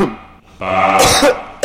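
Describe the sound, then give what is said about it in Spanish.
A woman coughing: a short, harsh, throaty burst of rough, raspy noise that breaks into a couple of loud hacks, heard alone without talk. “Aquí, la tos”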